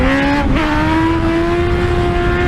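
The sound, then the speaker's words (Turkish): A motorcycle rides on its rear wheel along a road in Başakşehir, Istanbul. Its engine makes a loud, steady drone that steps up briefly in pitch early on, then holds level to the end. “Sürücü yolda bir anda motosikletin önünü kaldırarak tehlikeli bir yolculuk yaptı.”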